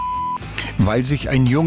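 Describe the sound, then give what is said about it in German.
A steady, pure censoring bleep tone briefly masks a word, then cuts off as a voice carries on speaking. “Unser Piepspiel, das Wichtigste ist weggepiepst.”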